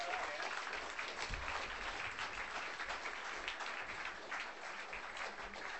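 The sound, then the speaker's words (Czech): Audience applause welcomes a special guest onto a stage: a dense, steady wash of many hands clapping that holds at an even, fairly loud level throughout. “takže pojďme ho přivítat potleskem. Bill Page, speciální host.”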